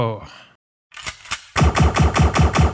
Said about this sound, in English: Let's see, shooting a cactus.